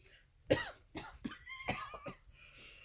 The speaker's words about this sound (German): Sorry, gerade ein Dönerstück angeatmet.